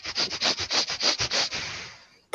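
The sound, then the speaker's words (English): A human voice imitates a bulldog's slightly asthmatic snuffling and grunting, a quick rhythmic run of about a dozen breathy sniffs that trail off, ending with a short sharp click. “start snuffling at you and grunting in that way that bulldogs grunt when they're sniffing at things. Slightly asthmatic grunting, yeah.”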